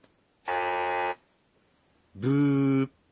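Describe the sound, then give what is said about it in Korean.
A quiz buzzer sounds for a wrong answer: two harsh, steady buzzes, each about half a second long, separated by a short silence. “부라고 하는데요. 이 표현은 부저 소리에서 온 말입니다.”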